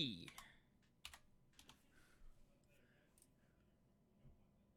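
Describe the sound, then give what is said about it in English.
Typing on a computer keyboard gives quiet, short bursts of crisp key clicks, spaced irregularly with pauses between them. “It's not even in there when I type OP.”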